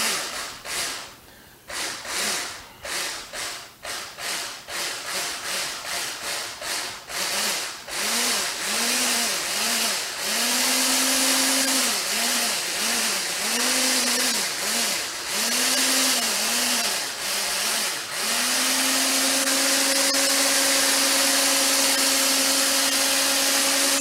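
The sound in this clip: A kitchen mixer blends milk and dry ingredients for a banana mixture, its motor whirring in many short pulses that stretch into longer runs and settle into a steady, continuous whir.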